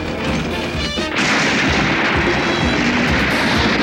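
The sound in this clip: A dense barrage of gunfire and blasts follows an order to open fire in an animated action film battle. The roar is loud and unbroken, and it thickens after the first second.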